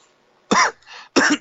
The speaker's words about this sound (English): I was breathing in as he coughed, too.